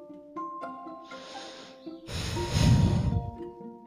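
A woman breathing deeply: after some faint tonal sounds, a long, loud, breathy draw of air swells and then eases off, rough and hissing, followed by quieter sounds at the end.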